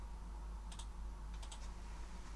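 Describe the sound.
Faint typing on a computer keyboard as a word is entered into a chat, heard as a few quick key clicks in two short bursts over a steady low hum.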